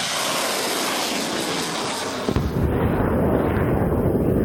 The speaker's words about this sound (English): The Mehrsads launched their missiles one after the other.